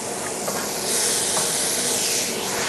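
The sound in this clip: Tomatoes tossed into a hot frying pan with browned onion, a little pepper and zucchini give a loud, continuous sizzling hiss that swells slightly about a second in and holds steady to the end.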